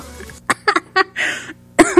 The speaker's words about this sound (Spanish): Ya llegué a la edad en la que me río y me da tos, ¿o qué?